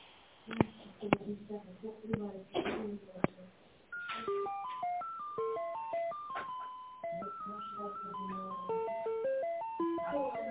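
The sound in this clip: Electronic telephone tones play over the line while a call is transferred to an accountant. A few clicks and line noise come first, then a steady melody of stepped beeping tones.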